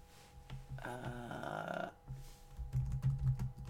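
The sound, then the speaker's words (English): Typing on a computer keyboard: quiet, irregular key clicks with soft low thumps, interrupted by a brief tonal hum near the middle. “I'm just gonna type it.”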